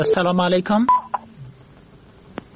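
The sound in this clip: Telephone dialing tones as a new call is placed: a burst of voice, then a few short electronic beeps, followed by near silence.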